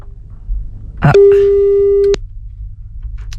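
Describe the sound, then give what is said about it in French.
Ringback tone of an outgoing telephone call: one steady, mid-pitched beep lasting about a second, preceded by a brief burst of noise and surrounded by faint voices. “Ah, ça sonne, on va peut-être appeler un autre.”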